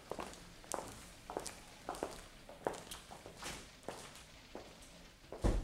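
Footsteps of people walking into the next room in a German radio crime drama, a faint, steady, evenly paced series of many shoe steps on a hard floor.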